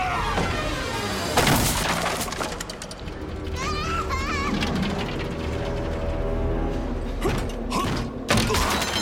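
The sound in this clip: A creaking door opening in the Romanian dub of Monsters Inc.: drawn-out creaks and mechanical clanks sound beneath excited voices, including a child's.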